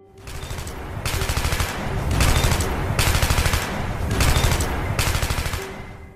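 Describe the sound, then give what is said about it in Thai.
Bursts of rapid gunfire as soldiers shoot at a rampaging tiger: several loud, crackling volleys alternate with brief lulls, each burst dense and sustained for nearly a second, with no voices. “เสียงกระสุนปืนจากทหารลั่นไกออกไปยังเป้าสังหารที่กำลังอาละวาด”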